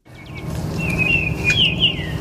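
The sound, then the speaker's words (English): Baltimore Oriole song: clear, whistled notes rising and sliding in a short phrase, carried over a steady low rumble that runs throughout. “That's an Oriole. Jerry Berrier points out the song of a Baltimore Oriole.”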